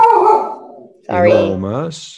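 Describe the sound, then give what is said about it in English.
A dog gives a few tonal, whining, howl-like cries. They are fairly loud, with a short pause after the first cry and wavering pitch in the later ones. “I think I heard, your dog wants to eat you or something.”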